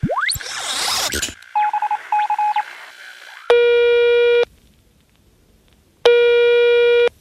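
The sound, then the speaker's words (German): A futuristic call device places a call: a quick rising whoosh and a few short beeps, then two long, buzzing ring tones separated by silence. “Den rufe ich jetzt einfach mal an mit dem X-Funker, oder Yvonne? Ja, das machen wir. X-Funker, bitte einmal Ludwig von der Erde anrufen.”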